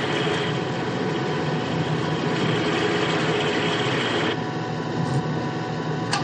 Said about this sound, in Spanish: El montacargas desciende a por más obuses.